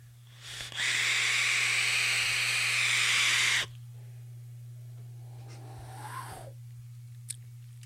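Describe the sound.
Vape mod hissing, a stainless steel Yak mod on an Aria: a loud, airy hiss lasts about three seconds and then cuts off, leaving faint small noises over a constant low hum.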